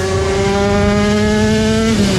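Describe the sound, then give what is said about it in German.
Engine drone of classic old motorcycles racing at the Schleswig-Holstein Classic Grand Prix, a loud, steady harmonic whine that holds its pitch and dips slightly at the very end. “Das ist der Sound vom Scheggerotter Classic Grand Prix in Schleswig-Holstein am 1. Juli-Wochenende. Klassische, alte, richtig geile Motorräder, soweit das Ohr hören kann.”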